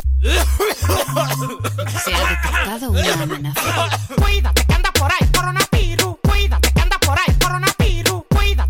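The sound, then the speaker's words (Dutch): Loud coughing opens a song, blended with a heavy, steady electronic beat and layered synth tones that continue throughout. “Ja, natuurlijk moest er ook eentje tussen zitten die de verleiding niet kon weerstaan om met keihard gehoest te beginnen.”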